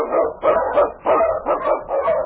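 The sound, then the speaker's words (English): Barking from an Eskimo sled lead dog in storm and snow: a quick, steady series of yelping barks, moderately loud and evenly spaced. “The Wonder Dog King, swiftest and strongest of Eskimo lead dogs, blazes the trail through storm and snow for Sergeant Preston”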